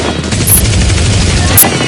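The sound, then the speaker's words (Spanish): Machine gun fire rattles out in one loud, continuous burst of fast, sharp shots with no pauses, heard alone without talk. “A ver, ¿quién ha sido? ¿Quién ha disparado con la ametralladora?”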